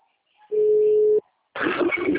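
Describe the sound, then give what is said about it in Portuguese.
A single steady telephone tone at a mid pitch holds for under a second while a call is placed to a client, then stops, and a voice starts talking. “Tô ligando pro meu cliente, tá, gente?”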